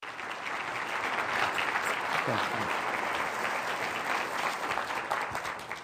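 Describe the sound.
Conference audience applause welcoming a speaker: loud, dense, sustained clapping that stays even throughout, with a voice briefly audible within it.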